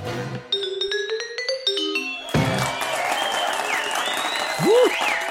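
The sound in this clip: Standing ovation in a club, with a dense burst of clapping cutting in after a short run of bell-like tones and carrying on loudly to the end.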